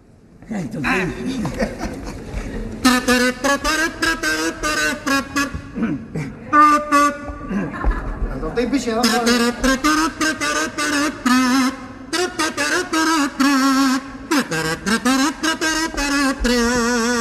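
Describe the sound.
A carnival pito, a buzzy kazoo-like whistle, plays during a cuarteto's cuplé, its nasal tooting notes running in long melodic phrases with voices around it.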